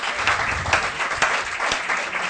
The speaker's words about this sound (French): on l'applaudit.